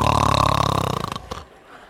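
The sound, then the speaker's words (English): A woman imitates a man's crazy, loud snore as one long, rattling, guttural snort. It lasts a little over a second, then cuts off abruptly into quiet. “And within 10 minutes, he started snoring with this crazy snore like this.”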